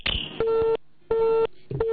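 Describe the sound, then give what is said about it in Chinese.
A telephone busy tone follows a dropped call line: a loud, steady beep repeats in short on-off pulses with silent gaps between them, with no talk. “我们的这个电话线掉了哈，有请我们的导播重新连线一下。”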